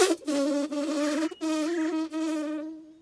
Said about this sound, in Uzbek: Chivin shunday deb to'g'ri uchib merganning oldiga boribdi.